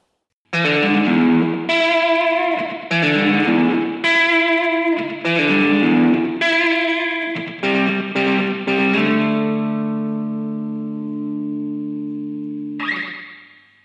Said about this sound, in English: let's get started with a bit of that probably slightly too noisy for this particular vista twangy guitar.